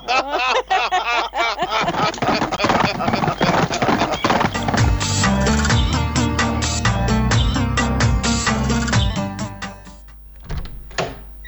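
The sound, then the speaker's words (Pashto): Horse hooves clop in a steady walking rhythm while the horse is ridden alongside nomads' herds, with neighing and snorting heard early on; the clopping stays loud and continuous, then briefly thins near the end. “زلزله به په آس سپره وي او د کوچیانو رمې به یې په مخه کړې وي.”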